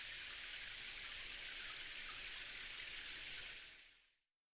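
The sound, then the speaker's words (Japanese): Hot water poured over a person for a bath makes a faint, steady, hissing splash that runs unbroken for about four seconds and then stops. “座れ！よし、お湯をかけるぞ。”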